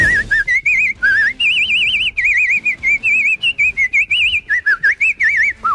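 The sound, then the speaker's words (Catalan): A person whistles a lively tune with a marked vibrato. The clear, high notes come in many short phrases with brief breaks, and each held note wavers rapidly in pitch. “Que pari ja de xiular. Fa vibrato i tot, eh?”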